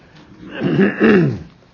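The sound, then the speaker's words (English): A recurring morning cough of the autumn season comes out as two rough, throaty bursts of throat clearing, fairly loud and close together, with no talk around them. “Whenever we're in the fall, I always have these things every morning, these coughing things.”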